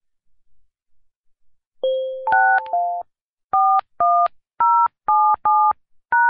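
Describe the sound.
Telephone keypad tones entering a conference call access code: a quick cluster of overlapping beeps, then six evenly spaced two-tone presses, loud and clean with no voices.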